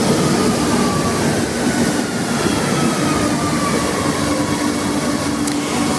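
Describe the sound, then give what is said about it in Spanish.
A Madrid metro train in motion, its continuous rumble and rushing hiss holding a steady, loud level throughout, with a faint thin whine running above the noise. “Y a las 12:26 quiero que te subas conmigo al metro.”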